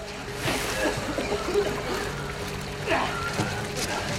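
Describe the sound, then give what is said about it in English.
Water splashing and sloshing as people are lifted out of a flooded stairwell onto a landing: soft, uneven swirls and a few louder splashes. “Ramsey lifts Elena out of the water onto the landing.”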